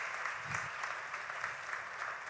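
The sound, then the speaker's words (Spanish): Applause from a church audience during a bilingual sermon, a steady, moderately faint patter of many hands clapping together with no break. “Alguien dé un aplauso a Dios por eso en el nombre de Jesús.”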